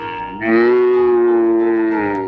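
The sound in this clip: A cow moos once in a long, steady, drawn-out call lasting about two seconds, swelling early and holding level before tailing off.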